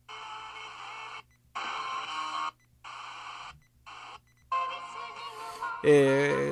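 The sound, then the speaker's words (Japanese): Portable radio scanning the FM band: four separate electronic buzzing bursts with short silent gaps, then louder, continuous station sound at the end. “こちらの方も同じようにピピッということで、終点が分かるようになっております。”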